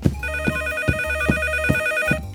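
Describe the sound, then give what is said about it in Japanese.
Telephone ringing with a bright, buzzy electronic ring that repeats in steady, even pulses throughout. The ring is loud, sounds alone, and has no talk over it. “おっと、電話だ。誰からだろう。”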